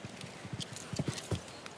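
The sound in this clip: Horse hooves striking the ground during a show jumping round, a quick, irregular series of many soft clip-clop beats, fairly faint and with no voices.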